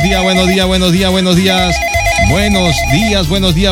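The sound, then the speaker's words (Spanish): A telephone rings with an incoming call as a loud electronic ringtone melody of stepping tones that loops without a break. “Aquí está entrando la llamada. Entra.”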